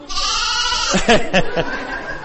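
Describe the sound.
Lamb bleating in a few short, wavering cries with a quavering, nasal tone, clustered close together partway through and then trailing off.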